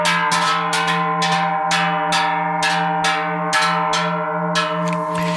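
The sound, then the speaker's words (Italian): Number 12 cowbell cast at a bell foundry, struck about ten times in a slow, fairly even rhythm, each clang ringing low and metallic with a long sustained hum between strikes, heard alone. “Questo dunque era il suono di un campanaccio prodotto dalla fonderia di Alexis”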